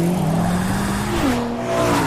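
A BMW M sports car engine revs in a continuous, loud drone, its harmonic engine note shifting in pitch partway through, with no talking.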